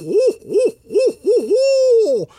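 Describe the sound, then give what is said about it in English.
A barred owl calls in a run of four short, rounded hoots, then one long drawn-out note that slides downward at the end. The hoots are fairly loud and clear, with no talk. “Well, the barred owl, B-A-R-R-E-D, named for the stripes or barrings, they typically give a”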